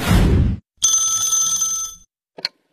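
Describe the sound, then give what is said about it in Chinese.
A telephone ringing: one bright, steady electronic ring lasting about a second, followed shortly by a brief short chirp. “这天呢，小何跟佳佳正看电视呢，小何的表弟打来了电话。”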